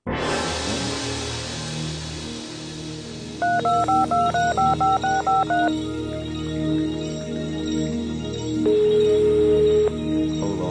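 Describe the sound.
Telephone keypad dialing tones: a quick run of short, evenly spaced beeps, then, after a pause, one long steady tone, all loud over a low background hum.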